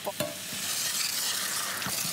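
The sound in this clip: Ingredients sizzle in a hot pan as liqueur is added, a bright, steady frying hiss. A few light clacks of stirring rise above it.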